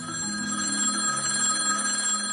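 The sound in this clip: A telephone rings with a steady, continuous electronic tone that holds at an even level throughout, with no voices over it.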